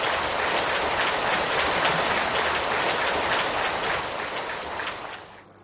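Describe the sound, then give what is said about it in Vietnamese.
Long, loud applause from a crowd at a temple inauguration ceremony: a dense, steady wash of clapping that holds for several seconds, then tapers off at the end. “Một tràng vỗ tay thật dài và lớn, lớn hơn nữa.”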